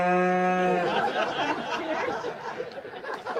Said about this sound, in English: Who invited the cow? The cow chimed in from the neighboring field at this English country wedding